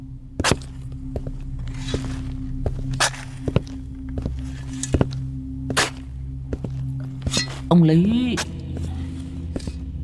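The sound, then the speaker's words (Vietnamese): Footsteps tread across graves carefully faced with laterite brick in a cemetery plot of the wealthy: many sharp, irregular thudding steps over a steady low hum. “đằng sau lưng của lão vang lên tiếng bước chân lịch bà lịch bịch dẫm lên trên những cái tấm nấm mộ được người ta cẩn thận ốp gạch ong”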